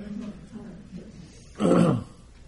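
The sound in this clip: A short, rough throat clearing during a mindfulness talk, a single gravelly burst rising out of a stretch of quiet, low murmuring.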